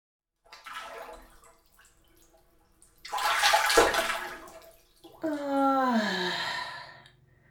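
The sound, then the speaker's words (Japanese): Hot bath water sloshes as someone soaks in a bathtub. A soft watery rush is followed by a louder, fuller splashing surge, and then a long voiced sigh. “やっぱり湯船に浸かるのはいいよな。”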